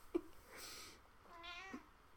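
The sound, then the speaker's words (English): A domestic cat meowing: one drawn-out, wavering meow rises and falls in pitch. It is fairly faint against a quiet background, and no one speaks. “And we're not gonna talk about my damn cat. My cat's just always here.”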